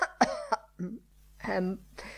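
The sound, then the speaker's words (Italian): A voice imitates a loud cough: a few harsh, abrupt bursts in quick succession, followed by rough throaty vocal sounds. “tossì forte.”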